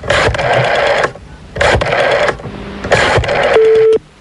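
Telephone ringing on a call: loud, buzzing ring bursts repeat with short gaps between them, and a steady tone sounds near the end.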